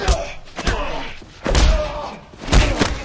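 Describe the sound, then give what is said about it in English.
Heavy thuds of a body being slammed into a corner during a fistfight, a few dull, booming impacts spaced apart, each with a short rumbling decay. “Ray charges Lester and slams him to the corner”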